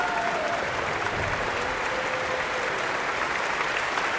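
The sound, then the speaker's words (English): Dense, steady applause from a concert audience giving a standing ovation after a cellist's encore with the Philadelphia Orchestra, sustained evenly without pause from start to finish. “This encore followed her terrific performance of Haydn's second cello concerto in D major with the Philadelphia Orchestra and guest conductor Sean Zhang, which prompted its own enthusiastic ovation. And they're on their feet again.”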